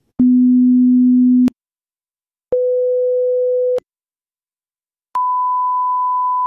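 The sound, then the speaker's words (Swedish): Hearing-test tones play through headphones as three steady pure beeps, each lasting just over a second and separated by silence, with each tone pitched higher than the one before. “Jag får lurar på mig och en knapp i handen som jag ska trycka på varje gång jag hör ett ljud.”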